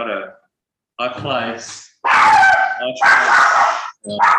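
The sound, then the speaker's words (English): Dogs bark excitedly as something comes in through the door, giving a few loud, harsh, overlapping bursts with short gaps between them. “dogs are going crazy. This thing just walked in the door.”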